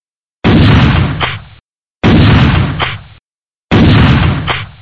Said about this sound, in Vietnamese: Ba tiếng súng trường nổ rất đanh, báo hiệu đường đã thông.